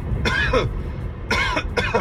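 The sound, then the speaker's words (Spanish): A man gives a few harsh, throaty coughs in short separate bursts, the later ones coming close together. “voy a toser, atención, 3, 2, 1.”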